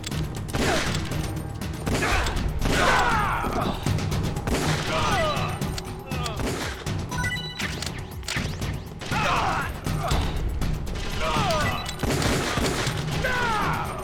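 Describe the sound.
Video game gunfire during a shootout with guards: rapid volleys of shots and crashing impacts overlap into a continuous loud barrage with short, uneven bursts throughout.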